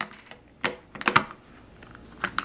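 A plastic avocado storage pod's lid gives several sharp clicks as it is pressed and locked into place. The snaps come unevenly spaced and fairly quiet, with no talk.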